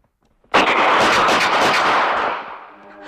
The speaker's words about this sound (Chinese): 开枪了！